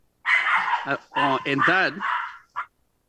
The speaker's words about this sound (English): And that is my dog, Marcus